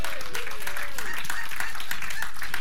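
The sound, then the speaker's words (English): A church audience applauds during an Easter Sunday morning service, loud dense clapping that runs steadily throughout, with a voice briefly audible over it at the start. “So give yourselves a hand for showing up.”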